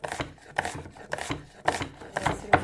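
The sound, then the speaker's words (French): A knife chops onions in quick, slightly uneven strokes. The crisp cuts come in many short pairs and clusters, grow a little louder toward the end, and sound alone without talk. “Tout d'abord, commencez par couper les oignons.”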